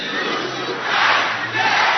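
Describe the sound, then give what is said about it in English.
A church audience shouts together on a count of three, a loud, dense crowd roar that swells in the middle and stays strong to the end. “When I mention three, then you shout to the neighbor.”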